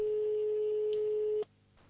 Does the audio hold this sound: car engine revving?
no

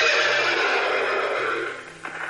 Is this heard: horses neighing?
yes

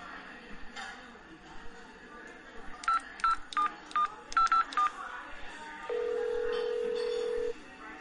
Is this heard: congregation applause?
no

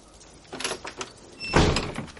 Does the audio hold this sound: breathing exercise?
no

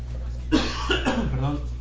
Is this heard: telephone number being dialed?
no

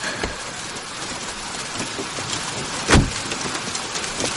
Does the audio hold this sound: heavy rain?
yes

